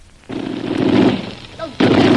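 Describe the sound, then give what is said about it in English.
A machine gun is test-fired right after being assembled, letting off two loud, sustained bursts of rapid fire separated by a short pause. “Don't! We can't waste ammunition. Besides, we don't want to attract attention. Well, it's been a long time since I put a machine gun together. I had to make sure it worked. Well, it worked all right.”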